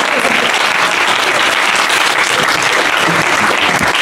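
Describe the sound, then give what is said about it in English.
Loud audience applause at a kirtan, a dense and unbroken wash of clapping that holds steady from start to finish. “There is no massive round of applause, so I have to keep on”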